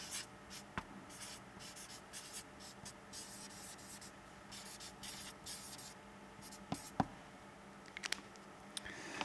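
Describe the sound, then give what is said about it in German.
Scratchy strokes of handwriting, steady quiet scratching that runs throughout with a few sharper taps and strokes near the end. “Also meine Frage, die ich hier hinschreiben will, ist, ähm, ich muss jetzt überlegen, dass ich nicht falsch schreibe”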